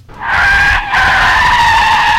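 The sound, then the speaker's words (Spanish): Car tires skidding during a chain crash: a loud, sustained squeal that breaks off briefly partway through, then resumes and carries on to the end. “Veo un choque de cadena y me toman de testigo.”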